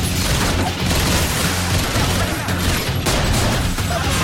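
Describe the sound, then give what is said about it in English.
Gunfire in a restaurant shootout, with a chef and staff firing at close quarters in a dining room: rapid, loud, overlapping shots and heavy booms follow one another without letup. “A chef in white enters the dining room and opens fire. Wax guns him down.”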